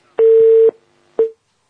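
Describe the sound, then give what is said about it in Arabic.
A telephone busy tone after a call is cut off: a loud, steady single-pitched beep lasting about half a second, a short silence, then the same tone starting again and cutting off. “طيب واضح ان الاتصال انقطع”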